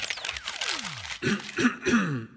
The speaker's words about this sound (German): bist du das eigentlich, der sich räuspert? Nein, das hat unsere Technikabteilung hat das selbst gemacht